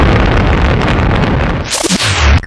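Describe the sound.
A rocket blast-off roars as a loud, dense and continuous rumble. A bright, rising whoosh sweeps up near the end, and the sound then cuts off abruptly.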